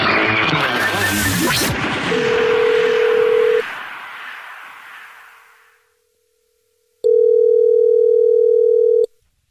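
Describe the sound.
A telephone call is placed back to a caller: a steady mid-pitched line tone sounds under a fading burst of noise, then after a silent pause returns alone as a loud, constant tone for about two seconds.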